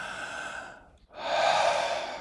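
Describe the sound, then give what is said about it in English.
One big breath in and out: a steady, airy inhale that fades into a short dip, then a louder, fuller, rushing exhale, with no talk. “I'm going to take one big breath and watch what happens to my body”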